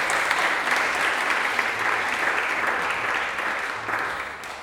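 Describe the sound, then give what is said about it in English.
Audience applause at a live music event featuring Indian-inspired music: dense, continuous clapping from a crowd that holds a steady, fairly loud level throughout and eases slightly at the end. “Big round of applause to Laanland.”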